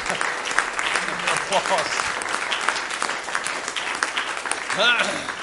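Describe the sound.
Audience applause in a church: a steady wash of clapping lasting about five seconds, with voices mixed in and a brief louder swell near the end.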